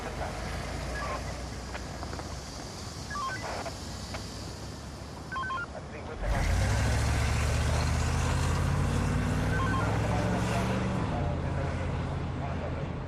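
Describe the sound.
A car engine starting and driving away. A loud low rumble kicks in midway, rises in pitch as the car accelerates, then eases off. Before it there is a busy background with a few short electronic beeps.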